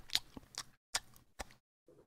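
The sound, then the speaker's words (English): Crunchy, wet chewing and biting sounds as someone eats close up, ASMR-style. A few separate bursts come with short silent gaps between them, and no talking is heard. “They gonna say, "Oh, here you go eating again." ASMR.”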